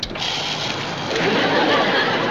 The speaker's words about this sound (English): I think it's the windshield washer.